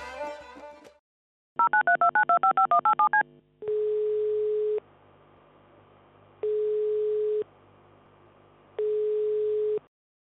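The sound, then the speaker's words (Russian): A call to a mobile phone is dialed with a quick run of short, evenly spaced keypad beeps. Three long, steady ringback tones follow, separated by pauses, and a brief different sound comes before the dialing. “Он звонит на мобильный матери, и так начинается их телефонный разговор.”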